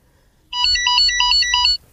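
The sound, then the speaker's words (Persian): A telephone rings with a loud electronic ringtone: a rapid, repeating pattern of high tonal chirps that starts abruptly, holds steady for just over a second and then stops, with no talk. “تلفن.”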